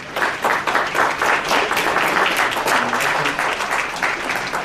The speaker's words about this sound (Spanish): Lo recibimos con un caluroso aplauso.